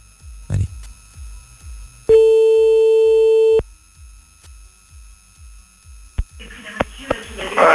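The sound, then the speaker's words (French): A single sustained telephone line tone sounds for about a second and a half while someone dials back a person by phone, steady and pitched, with soft rhythmic low pulses and brief voices before and after. “Bon, on va la rappeler quand même. Hein. Hop, on rappelle.”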